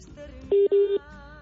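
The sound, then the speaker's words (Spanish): Two brief telephone dialing tones sound in quick succession while a number is dialed, clear and steady over a faint background hum. “Pues ahí se oye o dio como un tono, si estaba marcando o no.”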